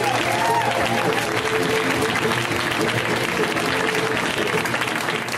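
Audience applause in a comedy club as a comedian is introduced to the stage: dense, steady clapping that stays loud and even across the whole stretch.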